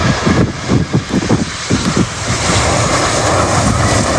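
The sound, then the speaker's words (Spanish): Loud, broad roar of an Air China airliner arriving at Andrews air base outside Washington, rumbling unevenly at first and then settling into a steady rush. “A bordo de un avión de Air China llegaba la base aérea de Andrews a las afueras de la capital.”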